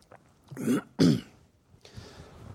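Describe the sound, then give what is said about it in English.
Throat clearing from a tickle in the throat: two harsh, rasping bursts close together, followed by quieter breathy rustling. “Excuse me, I've got a tickle in my throat. Maybe get a mint here or something. Maybe that'll help.”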